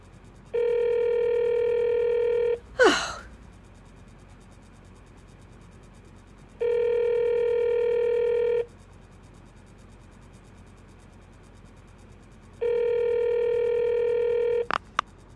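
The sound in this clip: A telephone call's tones sound as three long, steady buzzing tones separated by silent pauses, with a sharp click after the first tone.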